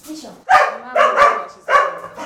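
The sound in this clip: Dogs barking and squabbling at a dog shelter: a few loud, sharp, yappy barks in quick bursts, tonal and excited, with short gaps between them.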